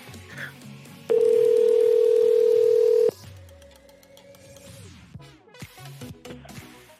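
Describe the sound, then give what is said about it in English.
A telephone dial tone sounds while a number is being called: a loud, steady tone holds for about two seconds, then gives way to quieter, busier background sounds. “I'm going to call him from his own number now and freak him out.”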